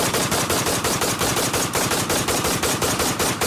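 Rapid automatic gunfire, many shots fired in quick succession, loud, with a steady, relentless rattling rhythm throughout and no voices.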